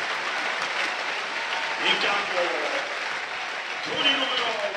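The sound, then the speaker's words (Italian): Crowd applause at a Parma versus Como football match as a substituted Parma player leaves the pitch in the 73rd minute. A steady, dense wash of clapping runs throughout while a commentator talks over it. “applaudito Eno, se ne merita.”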